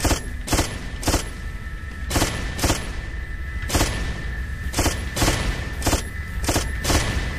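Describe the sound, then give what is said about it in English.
Video game machine gun fire: many short, sharp bursts at irregular spacing, in a game where the gun slows the more it shoots. A faint steady tone hums underneath throughout. “there are rockets, but the more you shoot, the slower your machine gun will become.”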